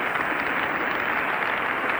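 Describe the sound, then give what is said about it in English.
Audience applause and cheering for Toscanini after the New York Philharmonic's 1936 Sunday afternoon performance of Beethoven's Ninth Symphony, a steady, dense wash of noise on an old, narrow-sounding recording. “Mr. Toscanini is being cheered by the audience at this afternoon's concert.”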